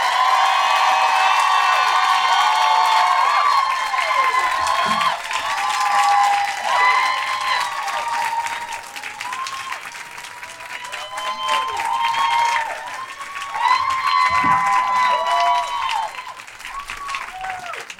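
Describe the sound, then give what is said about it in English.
An audience applauds, cheers and whoops as a speaker is welcomed onto the stage: sustained, loud clapping laced with high whoops and shouts that ease slightly midway, then swell again near the end. “Please welcome to the stage, with the kind of woohoos that would match that resume, the incredible Feminista Jones!”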